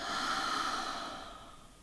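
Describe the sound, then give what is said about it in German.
A deep breath is drawn in through the nose and let out slowly through the mouth during a relaxation exercise. It is a soft, airy hiss that swells and then gradually fades. “Dann atme tief durch die Nase ein und lang durch den Mund wieder aus.”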